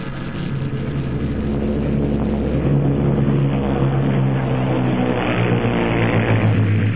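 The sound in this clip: Airplane engine sound effect for a radio drama about a plane flying deep into German territory: a loud, steady droning hum with a deep rumbling core that holds throughout, with no voices.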